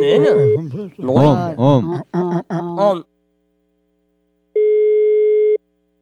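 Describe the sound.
A telephone ringback tone plays while a call is being placed, a single steady tone lasting about a second. It follows a stretch of talk and a pause of silence.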